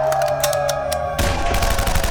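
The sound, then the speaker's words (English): A volley of gunfire as soldiers fire at will. Rapid overlapping shots come in a dense, loud, continuous barrage that thickens into a heavier roar partway through. “Fire at will!”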